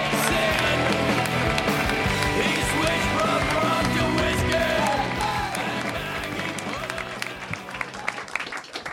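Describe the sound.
Applause from a stand-up comedy crowd welcoming a comedian to the stage, loud and dense at first, then thinning and tapering off toward the end as voices come through.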